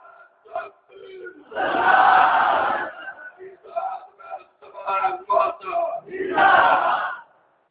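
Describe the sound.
A crowd shouts slogans in unison at a religious debate gathering. A few loud, rough bursts of massed voices are separated by shorter, quieter shouts, and the longest surges come near the start and at the end.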